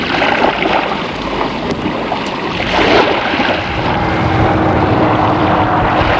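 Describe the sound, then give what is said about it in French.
An airplane flies over a site to check radioactivity after a memorial ceremony. A loud, broad roar swells a little past the midpoint and then holds steady until the end. “un avion survole les lieux.”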